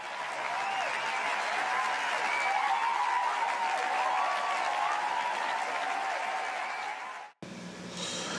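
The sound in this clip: Audience applause greeting the host of a hip-hop and self-help show, a dense, even clatter of clapping that holds steady for about seven seconds before cutting off abruptly.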